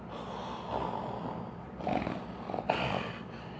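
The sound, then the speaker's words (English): A voice imitates heavy, Darth Vader-like breathing in a few long, raspy, hissing breaths with snorting pulses. The breaths grow louder toward the end. “This guy had steam coming off of him. And then he just walked, and I'm like, hold, and he breathes the way Darth Vader sounds.”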